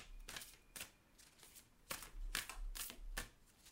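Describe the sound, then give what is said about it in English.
Cards being handled and drawn from a Super Attractor oracle card deck: a few soft, papery riffling bursts, quiet and irregular, with no talking. “We'll draw a card for podcast listeners.”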